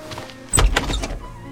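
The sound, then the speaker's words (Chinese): A door being opened, heard as a short dull thunk with a bit of rattle lasting about half a second over a low steady background. “他猛地甩了一下脑袋，阻止自己去做这种假设和对比。他打开门，”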